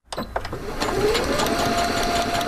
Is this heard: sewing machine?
yes